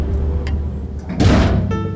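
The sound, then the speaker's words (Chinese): A front door closes with a single dull thud over a steady low hum. “听到大门关上的声音”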